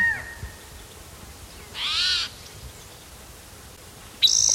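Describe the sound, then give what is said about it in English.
A male bird calls twice: a drawn-out, tonal, slightly wavering call of about half a second, then a short, sharp note near the end, both clear over a faint hissing background. “Bird that's calling, I think it's a different male.”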